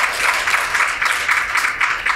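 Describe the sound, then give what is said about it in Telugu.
Audience clapping during a devotional discourse, a steady dense patter of many hands with a slight pulsing swell, moderately loud and continuous throughout, with no voices over it. “ఇప్పుడు మీరు చప్పట్లు కొట్టారా,”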